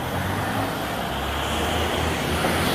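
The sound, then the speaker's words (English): Lorries passing on a London street make a steady, loud traffic rumble with a deep low drone that continues without a break. No one speaks. “Sorry for the noise. It is London, there are no cars, it's just lorries.”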